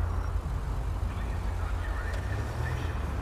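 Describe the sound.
Car engine rumble from the police video game FivePD: a steady, low, droning hum that holds at an even level throughout, with no clear shifts in pitch.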